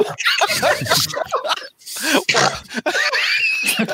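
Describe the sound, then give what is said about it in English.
A woman's forceful snorting amid laughter: harsh, loud, breathy snorts tangled with laughing and overlapping voices, in busy, uneven bursts over about four seconds. “There's the snort. She snorted so hard, she almost broke her neck.”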